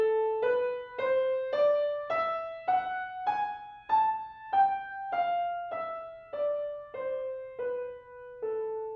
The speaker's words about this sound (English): So once again, we play the A minor scale, which is the relative of C major, so it's got no sharps or flats, but we're gonna raise the sixth and seventh note.